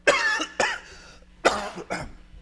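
A preacher with a sore throat coughs four times, harsh hacking bursts in two pairs, each dying away into a low rasp.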